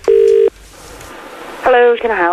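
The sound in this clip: Telephone keypad tones as a number is dialed for a prank call to a local newspaper: one loud tone, a short pause, then two more tones in quick succession.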